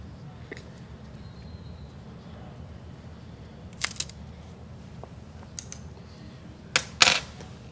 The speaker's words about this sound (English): So we'll go ahead and cut the cap and let's check out the draw.